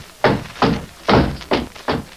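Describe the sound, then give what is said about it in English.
Five heavy, dull thuds as a horse paws and knocks at a door. The knocks fall in a slightly uneven rhythm, with no voices over them. “Pawing the door, I wonder.”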